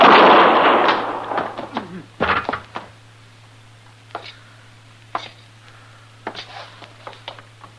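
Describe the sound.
Gunshots ring out in a staged shootout with a U.S. Marshal: a rush of noise gives way to several sharp cracks and thumps at uneven intervals, some closely paired, fading to fainter reports.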